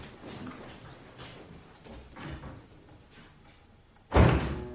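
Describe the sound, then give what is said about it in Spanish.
A front door swings shut as someone goes out, ending in one heavy, loud thud near the end after several seconds of steady low background noise. “Coge su toquilla y se la pone a la espalda saliendo por la puerta principal.”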